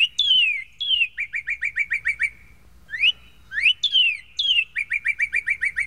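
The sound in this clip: Northern cardinal singing its main song: two phrases of clear whistles, each opening with loud down-slurred notes and then a rapid, even run of short chirps at a steady pitch.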